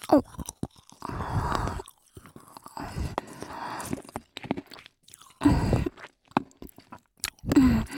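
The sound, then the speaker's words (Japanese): Crunchy chewing of a fizzy treat that dissolves when bitten: several bursts of crisp, moist crunching and munching separated by short pauses, with sharp clicks and smacks between them. “噛むとシュワーって溶けてか。やっぱりおいしい。”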